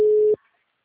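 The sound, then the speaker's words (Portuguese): A single ringback tone sounds while a phone call is being placed: one steady, loud mid-pitched beep lasting about a third of a second, then it cuts off into silence. “tô ligando pra ele”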